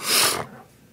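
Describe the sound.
A person sick with a cold gives a single short, breathy sniffle that fades quickly into quiet.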